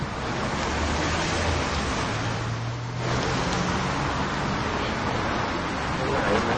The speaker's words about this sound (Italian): Sentite il tempo ci fa. C'è un vento qua. Un vento incredibile. Un vento europeo pazzesco.